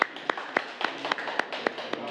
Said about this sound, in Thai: ปรบมือให้เพื่อนลูก